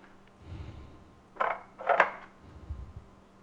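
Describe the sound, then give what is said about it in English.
Dry, papery crackles as the dead outer layers are peeled off a large onion before it is halved and quartered: two short, crisp bursts, fairly faint, with softer low knocks just before and after. “And then I'm going to quarter it. Let me peel off the dead layers here.”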